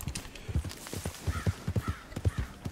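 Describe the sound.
Horse hooves clip-clopping as a horse is ridden into town in a video game: many fairly faint, rhythmic hoofbeats in a steady gait, the thuds falling in regular groups throughout.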